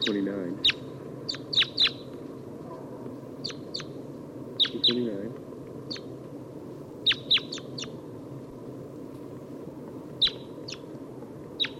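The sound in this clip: Type 2 calls of a crossbill, many short, sharp, high chirps repeated at irregular intervals, some in quick pairs or clusters, over a steady low background noise.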